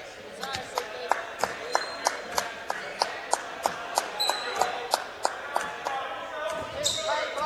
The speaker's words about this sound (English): he's going to dribble this thing until somebody comes out to guard him